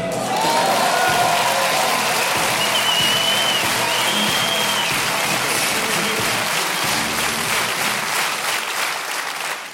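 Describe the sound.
A live stage audience applauds and cheers loudly, a dense, unbroken clatter of clapping with whistles and shouts rising over it. The sound holds steady throughout and eases only slightly at the very end.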